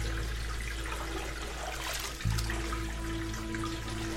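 Water drains steadily down a bathtub drain where a rubber duck floats, a continuous rushing gurgle with a low hum underneath and a brief thump partway through.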